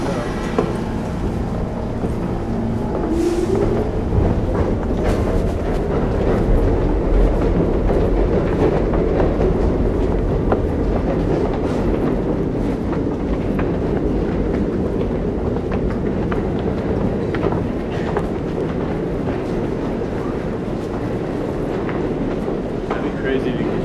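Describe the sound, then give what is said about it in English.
Subway train running on rails gives a loud, continuous low roar with faint rattling and clicking throughout, steady in level from start to end. “Are you Shazamming the subway right now?”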